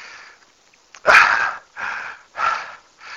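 Heavy breathing of someone catching their breath after exertion. After a quiet start come a series of loud, rasping breaths in a steady rhythm.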